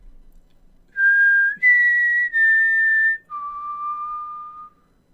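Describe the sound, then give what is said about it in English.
A person whistles a four-note mockingjay tune alone: clear, steady pure tones, the second note stepping up, the third slightly lower, and the fourth dropping to a longer, lower held note. “someone whistles Rue's 4-note mockingjay tune, the one that signaled the end of the workday in the orchards, the one that meant safety in the arena.”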